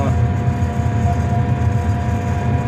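Steady engine drone of a farm harvester driving slowly in second gear at about 9 km/h, a low, even rumble with a constant hum above it, loud throughout and alone.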